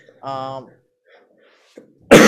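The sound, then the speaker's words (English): Coughing: a short voiced sound, then a quiet stretch, and at the very end one sudden, loud, harsh cough. “Sorry, you couldn't mute yourself when you were coughing.”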